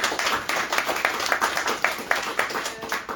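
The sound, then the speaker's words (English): Audience applause at an author event: a dense, steady patter of many hands clapping that holds at a moderate level throughout, with no voices standing out. “Let's give everybody a round of applause.”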